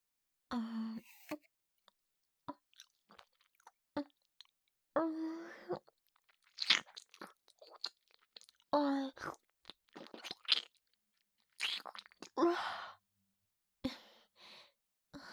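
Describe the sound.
Crisp crunching bites and wet chewing of an apple come in many irregular bursts separated by short quiet gaps, with soft breaths and sighs between them.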